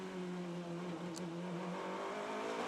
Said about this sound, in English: Down through the gearbox. These new GTPs take a little more stopping.